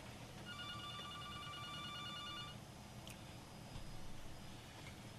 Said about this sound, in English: Sounds like our first caller of the morning.